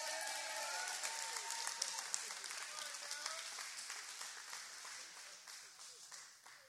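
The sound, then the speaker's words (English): Smattering of applause from an audience at a storytelling event: sustained, faint clapping that gradually thins and fades toward the end, with no talk over it. “Based on the smattering of applause and uncomfortable laughter,”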